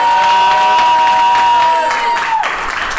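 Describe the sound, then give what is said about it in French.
A live studio audience cheers and makes noise for listeners at a recording at Stade des Antilopes. The crowd roar is loud and steady for about three seconds, then eases slightly near the end. “On enregistre actuellement en live avec un public. D'ailleurs, le public, est-ce que vous pouvez faire du bruit pour les auditeurs?”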